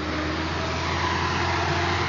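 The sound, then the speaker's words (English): Traffic on the Lagos–Benin highway in Nigeria: a continuous broad roar of vehicles with no single vehicle standing out, steady and moderately loud throughout. “This road is the highway between the cities of Lagos and Benin. It is one of the busiest highways in Nigeria. Thousands and thousands of vehicles ply it every day.”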